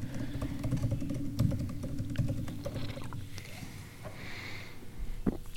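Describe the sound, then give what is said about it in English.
Fast typing on a computer keyboard: a rapid, steady stream of small clicks and key taps running without a break, fairly soft, with no talking. “You type really fast. I've been working on that.”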